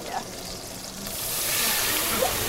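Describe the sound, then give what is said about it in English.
Onions and meat sautéing in a pan, a sizzling hiss that swells and grows louder partway through and then holds steady, with faint talk near the start. “Some were pretty nervous about sautéing the onions and then the meat.”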